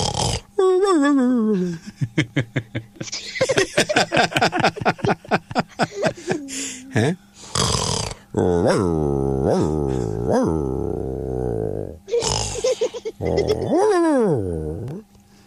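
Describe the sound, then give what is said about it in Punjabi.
A person imitates a dog-style snore, mixing rapid pulsing snorts with whiny, swooping voiced sounds and a growly tone, fairly loud and uneven. “ਕਈ ਹੁੰਦੀ ਨਾ ਘਰਾੜੇ ਦੀਆਂ ਕਿਸਮਾਂ ਹੁੰਦੀਆਂ, ਕੁੱਤਾ ਘਰਾੜਾ”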